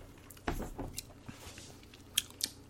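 Food is bitten and chewed during a taste test: a few crisp crunching bites and softer chewing, fairly quiet, with no talking.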